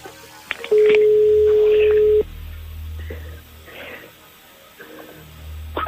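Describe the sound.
Telephone dial tone on a landline call: a loud, steady, unbroken tone holds for about a second and a half, then a few faint, short tones follow at irregular intervals over a low background hum.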